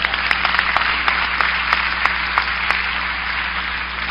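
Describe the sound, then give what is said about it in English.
An audience clapping hands together at a church service, a steady dense wash of applause with scattered sharper claps standing out, fairly loud and continuous throughout, with no voices over it. “Clap your hands.”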